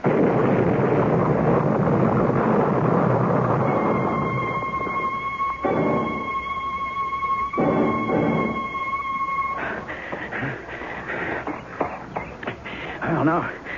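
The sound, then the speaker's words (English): A bomb explosion sound effect in a radio mystery drama: a loud, broad roaring blast opens and rumbles on, then a steady high ringing tone sounds over fading noise. “Now maybe you believe me. You know that bomb was meant for me.”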